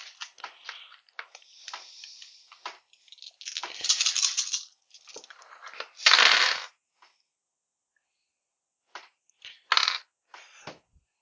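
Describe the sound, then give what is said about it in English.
Dice rolled on a tabletop make many short, sharp clattering bursts, coming in irregular runs separated by pauses, with a few louder rattles toward the middle and end and no talking. “I guess I need to roll some dice.”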